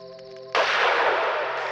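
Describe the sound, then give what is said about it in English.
A single loud rifle shot during a deer hunt in tall grass bursts in after a steady held tone, its harsh, noisy blast trailing on for over a second. “Good thing I brought my rifle with me. Steady. Steady now.”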